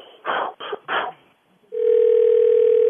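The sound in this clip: A steady telephone dial tone sounding before a three-way call starts partway through and holds unbroken to the end, following a few short bursts of sound.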